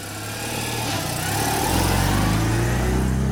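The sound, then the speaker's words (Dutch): An old Citroën 2CV's small engine runs in a steady, buzzy drone that grows louder and fuller about halfway through, with no voices. “dat is een onmiskenbaar het geluid van de Deux Chevaux, ook wel de lelijke eend genoemd.”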